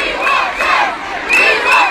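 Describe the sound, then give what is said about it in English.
Pimlico Academy students in Westminster, Inner London, chant loudly in unison during a protest against changes made by their new head teacher. The shouted phrases come in two rhythmic surges, with cheering voices mixed in. “What you just heard there was students from Pimlico Academy in Westminster, Inner London, campaigning against changes made to their school by their new head teacher, Daniel Smith.”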